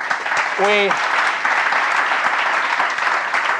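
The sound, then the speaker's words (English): An audience applauds at a live onstage talk with dense, steady clapping that stays loud and even throughout, with a brief voiced cry rising out of the crowd early on. “So big applause again for Elisenda”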